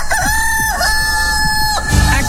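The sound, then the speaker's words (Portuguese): A rooster crows loudly in one long, drawn-out call that holds a steady pitch with a few brief wavering breaks, heard alone with no voices. “porque o galo já tá cantando”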